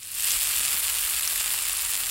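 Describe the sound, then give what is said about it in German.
Bratwursts sizzling in a frying pan, a loud, even, continuous hiss of crackling fat that holds steady throughout, with no talk. “Lecker, da brutzeln sie in der Pfanne, die evangelischen und die katholischen Bratwürste.”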